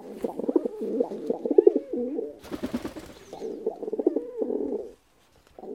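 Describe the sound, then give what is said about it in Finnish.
A pet pigeon coos while held in its owner's lap in an apartment, giving a run of low, throaty, rolling coo phrases one after another, then a short pause near the end before one more coo begins. “Tämä kurnutus kuuluu lemmikkipululle.”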